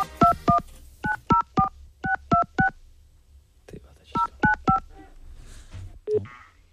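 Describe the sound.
Touch-tone telephone dialing for a call to Slovakia: eleven short, clear beeps come in groups of two, three, three and three, separated by brief pauses, with a longer gap before the last group.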